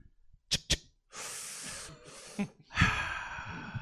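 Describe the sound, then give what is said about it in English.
A voice imitates lighting and inhaling a Marlboro Red cigarette. Two sharp clicks like a lighter being struck come first, then breathy hissing draws, then a longer, louder breathy inhale that trails off at the end. “If you read that onomatopoeic opening line correctly, then it sounded like the lighting and inhaling of a damn fine cigarette.”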